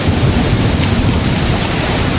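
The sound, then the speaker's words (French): A thunderstorm over a garden at night gives a dense, unbroken rush of rain and gusting wind, with low rumbling energy underneath. It stays loud and even from start to finish, with no voices. “Vers la fin de la veille, le grondement du tonnerre s'éloigne enfin. Les bourrasques s'apaisent pour devenir un souffle léger.”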